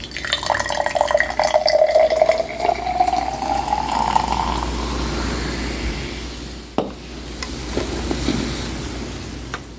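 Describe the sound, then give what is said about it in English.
Ginger ale is poured over a raspberry jam and almond extract drink, a continuous fizzy fill whose tone rises steadily in pitch over several seconds before easing into quieter bubbling. “And then we're going to top it with ginger ale.”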